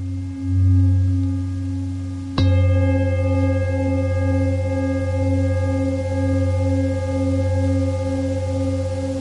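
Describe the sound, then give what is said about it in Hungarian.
A singing bowl used for sound therapy is struck once and sustains a long, loud humming tone with rich overtones and a slow, pulsing wobble as it rings on alone. “Meg lehet szólaltatni ezt a hangtálat, ami mellettünk van? Persze.”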